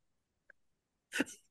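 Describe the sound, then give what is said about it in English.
A single sneeze from someone with the flu comes as a sharp, breathy burst out of near silence. A faint, brief click comes before it. “Sneezing on, from the flu.”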